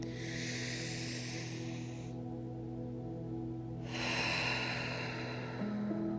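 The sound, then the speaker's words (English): A deep breath, drawn in as a long, soft, airy rush and then released after a brief pause, with a steady low musical drone sustained underneath. “Let's take a deep breath here.”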